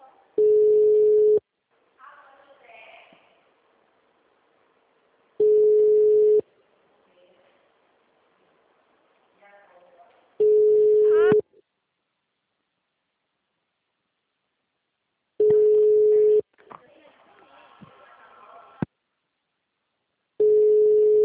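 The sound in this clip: A telephone ringback tone plays while a call goes unanswered. A steady, mid-pitched tone sounds in long bursts at a regular interval of about five seconds, five times with the last cut short, and faint noises fill the gaps.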